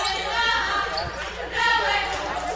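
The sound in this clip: A basketball is dribbled during a women's game, a few dull rhythmic thumps on the court beneath commentators talking.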